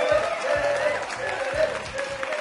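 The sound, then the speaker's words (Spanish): Audience applause for a scientist at a talk: a steady, dense wash of clapping that keeps an even level throughout. “Un aplauso para Helen Fisher.”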